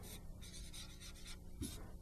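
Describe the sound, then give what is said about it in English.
Writing on a board makes a faint scratching and rubbing sound, with a few short strokes in a quiet, uneven rhythm. “I'm just going to write it over here.”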